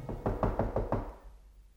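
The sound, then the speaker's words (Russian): Firm knocking on a door, a quick run of several hard, evenly spaced raps, followed by a short, quiet tail. “Гость остановился перед дверью и крепко постучал.”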